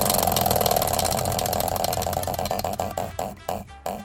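A prize wheel spins with rapid clicking ticks that gradually slow and spread apart, ending in a few widely spaced clicks as it comes to rest.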